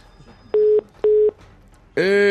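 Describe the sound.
Telephone call tones: two identical steady beeps with even gaps between them, followed by a harsher, buzzier tone that starts at the very end.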